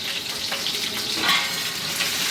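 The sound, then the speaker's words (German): A sauce base sizzles in a pan on the stove, making a steady, even frying hiss with small crackles throughout and no voices. “Das Geräusch kommt jetzt nicht vom Wasser, sondern es kommt vom Soßenansatz, den wir nebenbei laufen haben.”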